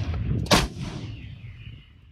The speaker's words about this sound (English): Ukrainian military officials say these are exclusive images of the same weapons in action just this week, firing on Russian forces more than 20 miles away.